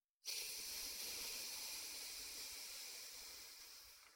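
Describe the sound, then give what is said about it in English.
Breath pushed out through one nostril after switching sides in alternate-nostril breathing, a calming exercise for anxiety. It is one smooth, airy hiss that starts abruptly and carries on steadily for about four seconds, fading only slightly toward the end. “Breathe in through the right nostril again. And when you have a full breath of air, switch and breathe out.”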